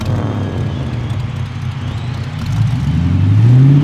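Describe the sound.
A monster truck engine revs in a video game, a loud, steady rumbling drone that climbs in pitch and swells in loudness toward the end, heard alone without speech.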